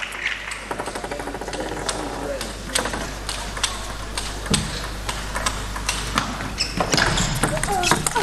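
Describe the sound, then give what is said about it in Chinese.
Table tennis ball contacts from a serve and a forehand smash in a women's international match, with many sharp ticks and bounces heard under a commentator's excited talk. “又是一个发球抢攻，正手的爆冲， 好球”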